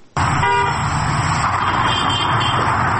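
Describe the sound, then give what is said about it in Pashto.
Steady, loud traffic roar from cars moving through busy Kabul market streets, with a short car-horn toot near the start and dense engine noise continuing throughout, no voices. “په بازارونو کې تګ راتګ ډېر دی، پلورنځي بیرته دي او موټر هرې خواته ځي او راځي.”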